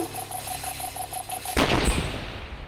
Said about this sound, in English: A very smart bomb indeed.